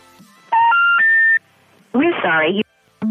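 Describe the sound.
Touch-tone dialing on a landline telephone gives a short run of steady electronic tones, then a brief burst of voice and another clipped tone at the end.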